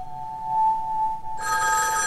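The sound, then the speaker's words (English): A telephone rings in a phone booth on a deserted sidewalk. A steady, thin electronic tone gives way to a bright, buzzing ring that holds to the end, with no talk. “He glances behind him and trots to the ringing phone.”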